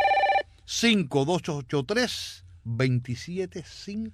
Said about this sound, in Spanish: ¿Oyendo el timbre? Ya están llamando.